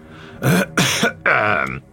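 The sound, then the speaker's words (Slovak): An older man clears his throat in three rough, harsh bursts while seated at a table, the last burst the longest, with no other voices. “Sváko sa usmeje popod fús a dôležito si odkašle.”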